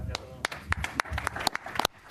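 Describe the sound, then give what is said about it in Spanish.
Journalists at a press conference clap, sharp individual hand claps from a small group, scattered and irregular rather than a full wave of applause, fairly soft overall. “Aplausos de los periodistas para Roberto Bautista”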